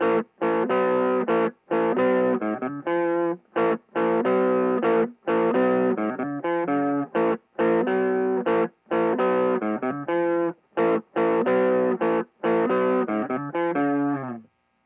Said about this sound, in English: Alright, there's your TS-808. You ready for the sound demos? I'm gonna try my best. All right, here's number 1.